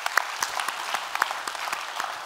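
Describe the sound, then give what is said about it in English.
A church audience claps at a weekend service on the Stone Canyon campus. The applause is soft and fairly sparse, a steady patter of separate hand claps with no voices. “So if you would put your hands together, welcome those who might be listening in right now.”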